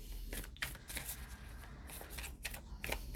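Cards shuffled and drawn during a card reading: a few quick, crisp riffling bursts with sharp papery snaps, fairly loud and even, with no talking.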